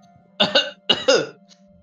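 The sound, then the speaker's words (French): A person coughs loudly, two harsh double-burst coughs in quick succession, over a faint steady hum. “je tousse bruyamment”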